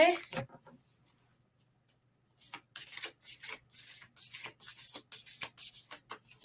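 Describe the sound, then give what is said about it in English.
Tarot cards are shuffled and drawn. After a quiet start comes a brisk series of papery swishes and rubbing strokes in quick, irregular bursts. “Let me pull a card for Tiffany.”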